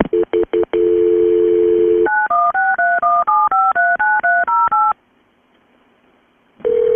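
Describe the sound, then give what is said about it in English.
Telephone keypad dialing tones as a 911 call is transferred to state police: a few quick beeps and a longer steady tone, then a rapid run of many short, clear tones at shifting pitches. A pause follows before another steady tone starts. “Once she figures out that she's in a different location, this is where she transfers Shannon's call.”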